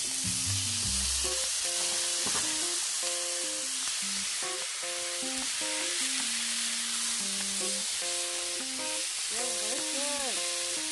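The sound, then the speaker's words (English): Tomato, onions and garlic fry in a pan with a loud, steady sizzle that holds as a dense hiss for the whole stretch. “we're just gonna add the tomato, onions, and garlic that we set aside, and we're just gonna add it right now. You hear the sounds of cooking.”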